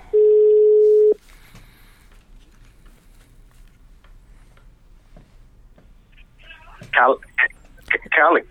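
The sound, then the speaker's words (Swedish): A single steady ringback tone sounds as a phone call to someone is placed, followed by several seconds of quiet line hiss before a voice answers briefly at the end. “Ska vi ringa lite? Vi provar.”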